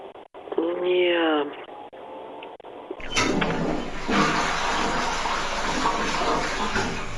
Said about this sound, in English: Like you touch on the handle, and the water goes down, and it swirls and it fills back up.